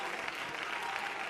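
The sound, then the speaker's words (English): An audience claps its hands together in praise during a church worship service, a dense, steady patter of many hands that holds evenly loud throughout without pause. “let's clap our hands unto the Lord and shout unto God with a voice of triumph.”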